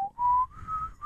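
A person whistles a short tune softly, a few clear sustained notes stepping slightly upward in pitch, with no talk over it.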